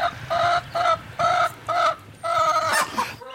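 A laying hen in a coop clucks alone in a rhythmic run of short, loud, nasal calls, evenly spaced, with the last few running closer together.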